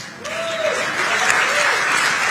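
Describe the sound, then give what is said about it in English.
Audience applause at a political speech: a dense, steady wash of many hands clapping that stays loud and even from start to finish. “he pauses to let them clap for him. He pauses to let them show him the love he seeks.”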